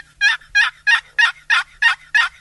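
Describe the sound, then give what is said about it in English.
Hen turkey yelps made on a turkey call: seven evenly spaced, raspy, nasal notes in a steady rhythm, each loud and clear, with no voices. “So here's the basic hen yelp.”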